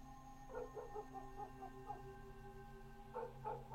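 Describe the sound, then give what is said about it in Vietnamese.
Faint, high-pitched barking of a black dog standing up on a porch and barking out toward a yard: a quick run of short yelping barks, a pause, then a few more over a steady low hum. “Con chó mực đang nằm cuộn mình ở ngoài hiên, bất chợt đứng lên, chĩa ra bên ngoài sân mà sủa lên nhấm nhằng.”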